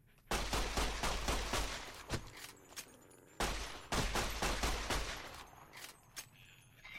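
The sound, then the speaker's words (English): Rapid automatic gunfire from a fast-firing gun in a video game: two long, dense bursts separated by a short pause, then a few isolated sharp shots near the end. “And this gun fires incredibly fast, but then kind of reloads at more or less normal speed.”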